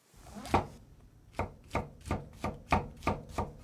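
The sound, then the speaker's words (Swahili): Knife slicing washed mushroom caps into thin slices after the stem bases are trimmed: eight crisp, evenly spaced cuts, the first slightly louder than the rest, with no voices. “Upande wa uyoga uondoe sehemu ya chini ya shina, uoshe kisha katakata sehemu ya juu mara 2 na kila kipande ukikatekate vipande vimbamba vimbamba.”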